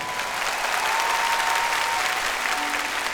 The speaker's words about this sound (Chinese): 嚟快啲拍，大啲拍手，等我聽到你哋。